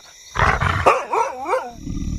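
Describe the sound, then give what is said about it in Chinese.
A husky howls like a wolf: a rough, loud onset gives way to wavering, warbling tones that rise and fall several times before trailing off into quiet background. “真是受够了，居然拿哈士奇冒充狼。”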